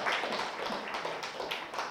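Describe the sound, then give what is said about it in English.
Congregation clapping at a church service, a dense, steady wash of many hands striking with scattered sharper claps, fairly faint and continuous, no talk over it. “Can we give a clap to the Lord Jesus Christ? Not me, to the Lord Jesus Christ.”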